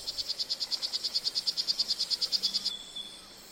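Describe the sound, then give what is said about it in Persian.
A poison frog calling in a crowded rainforest: a rapid, even train of many high-pitched, clicking chirps lasting about two and a half seconds, then it stops. “این یک قورباغه زهرآگین است.”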